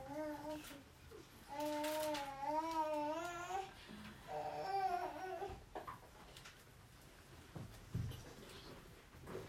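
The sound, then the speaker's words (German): Crying in a room during a church sermon: faint, wavering sobbing wails with quivering pitch in two stretches early on, then softer broken fragments. “You know, here somebody was crying. Hat jemand geweint?”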